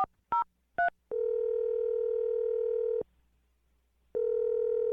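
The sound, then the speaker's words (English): Telephone tones while a number is dialed: a few quick keypad beeps, then a steady mid-pitched tone lasting about two seconds, a pause, and the tone returning. Quiet throughout, with no talk. “I'm going to dial the number right now. Here we go. Oh, I hope this works.”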